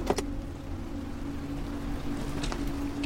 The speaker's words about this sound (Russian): Машину останавливают жители селения.